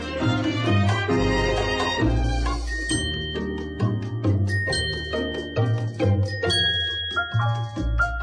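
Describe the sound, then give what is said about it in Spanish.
Small glass bells tinkle in bright, ringing chimes within a full musical arrangement with a strong bass line, the high bell tones sustaining and overlapping throughout. “Oye, qué bonito es el tilín de mis campanitas de cristal.”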